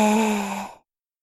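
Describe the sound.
A single deep exhale during a guided breathing exercise, breathed out with a soft voiced sigh that fades away in under a second and leaves silence.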